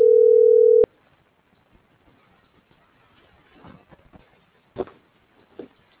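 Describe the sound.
A telephone dial tone sounds after a call is cut off. The loud, steady hum lasts under a second and stops abruptly, leaving faint scattered rustles and low background noise.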